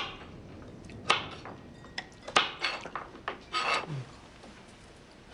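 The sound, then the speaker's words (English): Knife cutting carrots into slices: a series of irregular, crisp chops and short scraping strokes on a board, some louder than others, with brief gaps between them and no voices. “cuts carrots”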